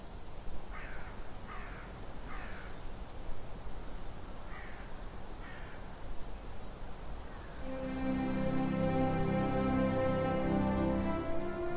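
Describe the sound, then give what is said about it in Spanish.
Crows cawing in snowy winter in the Black Forest: a few harsh caws come in short groups over a steady hiss, and a sustained harmonic tone takes over near the end. “Los cuervos parecen imperturbables ante la nieve.”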